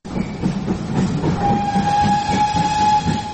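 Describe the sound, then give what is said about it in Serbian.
A narrow-gauge steam locomotive and its train clatter along with a rhythmic wheel beat. Partway through, the locomotive's whistle cuts in as a steady, high, sustained tone lasting well over a second. “Pisak Ćirine lokomotive, oblaci pare i uskotračna pruga rijetko se mogu vidjeti i doživjeti kao turistička atrakcija.”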